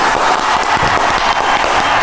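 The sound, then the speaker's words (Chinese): Audience applause welcomes a factory manager onto a stage, dense and loud clapping that holds at a steady level without pause from start to finish. “好，我们掌声有请胡经理上场。”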